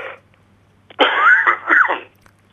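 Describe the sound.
A man coughs because of an allergy: one rough, throaty cough in two close bursts, fairly loud, after a faint short sound.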